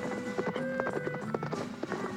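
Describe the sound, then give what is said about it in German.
Horses' hooves clip-clop as riders set off, a brisk, steady run of many quick hoofbeats at moderate loudness. “Wir bestiegen die Pferde und ritten los.”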